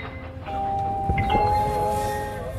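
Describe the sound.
A train in motion: a low, steady rumble of rolling carriages with sustained tonal whines riding over it, continuous through the short stretch.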